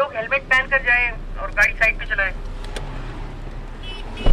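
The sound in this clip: Steady road and engine rumble inside a police cruiser driving on a highway north of Islamabad, continuing beneath a person talking.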